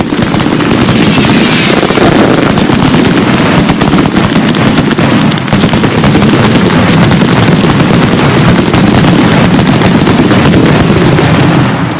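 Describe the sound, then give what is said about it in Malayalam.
Fireworks shoot up and explode in the distance, a dense, loud barrage of booms and crackling bursts that continues without letup throughout. “ആ സമയം തന്നെ അകലെ വെടിമരുന്ന് ഉയർന്നു പൊങ്ങി ഘോരശബ്ദങ്ങൾ പുറപ്പെടുവിക്കാൻ തുടങ്ങി.”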